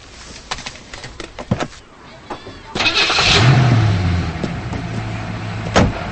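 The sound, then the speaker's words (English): A car engine starts after a few light clicks and voices, then settles into a sustained running drone as the car drives off toward a highway. A louder surge comes near the end. “Davis drives away. He speeds down the highway.”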